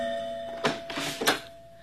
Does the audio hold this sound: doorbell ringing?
yes

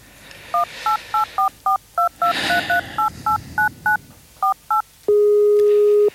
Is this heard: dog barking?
no

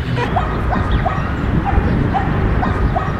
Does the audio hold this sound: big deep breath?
no

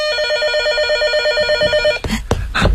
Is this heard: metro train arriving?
no

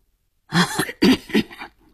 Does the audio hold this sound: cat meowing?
no

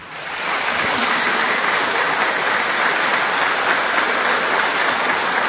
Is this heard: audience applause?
yes

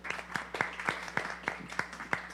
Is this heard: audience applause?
yes

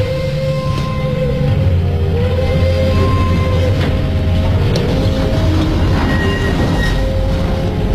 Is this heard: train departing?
yes

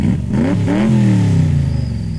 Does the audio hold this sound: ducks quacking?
no

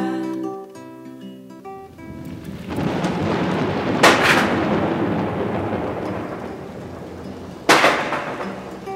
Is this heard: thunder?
yes

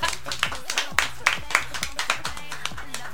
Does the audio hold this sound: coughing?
no

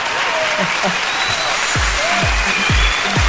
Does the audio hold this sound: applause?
yes

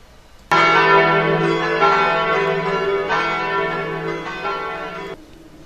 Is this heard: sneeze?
no

